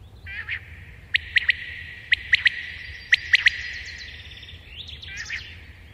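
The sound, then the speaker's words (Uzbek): A quail calling in a meadow, giving sharp chirping notes in three evenly spaced groups of three over a steady high-pitched hum. “Bedana bir o'tloqda o'tlarni urug'larini yeb yurgan ekan. Birdan zavq bilan sayrab yuboribdi.”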